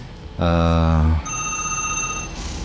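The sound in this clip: An electronic telephone ring as a caller joins by phone: one loud, buzzy, harmonic-rich tone lasting under a second, followed by a thinner, steady, high-pitched tone.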